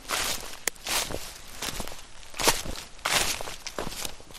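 Steady footsteps walking along a long pilgrimage trail of dirt, asphalt and forest paths, many crunching steps at an even walking rhythm, fairly loud and alone with no voices.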